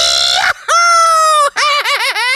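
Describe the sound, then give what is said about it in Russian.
A person's screaming serves as a sound effect in a radio advert: loud, drawn-out, high-pitched shrieks follow a brief noisy burst, and the final scream wavers up and down in pitch. “А это кричит человек, который увидел цены в магазине «Воин».”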